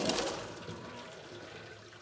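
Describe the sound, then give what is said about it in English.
Cooked beans and their water pour from a pot tipped into a sink strainer: a sudden splashing rush at the start settles into a fading trickle and drain. “So the pot is at the edge of my sink. And I'm just gonna tip over right into the strainer.”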